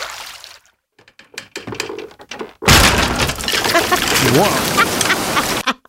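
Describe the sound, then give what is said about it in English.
Overfull fishing nets straining as they are cranked in, almost breaking: scattered sharp clicks and knocks, then a loud, dense crackling rush with a brief creaking groan. “That is the sound of all of the nets getting so full that they were almost breaking.”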